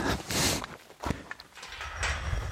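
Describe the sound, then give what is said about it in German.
Footsteps of people walking toward a gate at the former border. A few uneven, scuffing steps alternate with brief rustling bursts and some soft thuds. “So, wir laufen wieder auf das, auf das Tor zu. Genau, wir gehen jetzt mal kurzzeitig auch auf hessisches Gebiet zur sogenannten Hessenhalle.”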